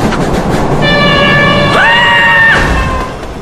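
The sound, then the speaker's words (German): A subway train arrives at Grand Central Station, with a loud, steady rumble and a sustained tonal whine that steps up in pitch partway through, then drops away as the noise fades at the end. “Wann kommt denn nun der Zug? Ah, da kommt er schon.”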